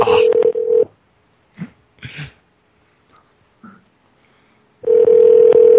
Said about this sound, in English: We've been calling them so much. Dude, they don't answer the phone at all.